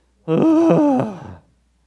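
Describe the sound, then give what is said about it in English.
An audience groaning together on cue gives one long, low, moaning groan with a wavering pitch. It is held for just over a second and then fades out gradually. “You guys know how to groan, right? Count of three. Everybody groan. One, two, three.”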